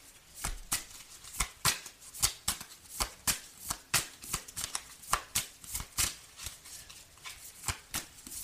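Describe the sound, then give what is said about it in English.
Playing cards are handled and flicked, producing many crisp, sharp snaps and riffles in a quick, uneven rhythm that holds steady throughout, with a faint background hiss between them. “Okay, let's get some cards. May I have some cards, please?”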